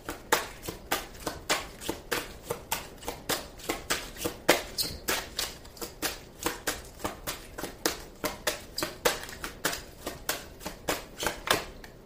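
Cards being shuffled before one is drawn for an astrology card reading: many soft, crisp riffling bursts in a steady repeating rhythm, fairly quiet, with no talk.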